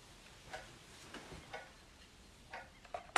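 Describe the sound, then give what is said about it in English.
Faint ticking of a wall clock, a few soft, evenly spaced ticks about a second apart over low background hiss, ending in a sharper click. “She grabs the clock off the wall. She removes a battery, then places the clock on a counter.”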